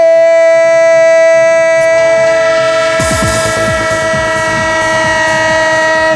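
A train horn blows as a loud, sustained multi-tone chord through the whole clip, joined about halfway by a rolling rumble and clatter of a passing train.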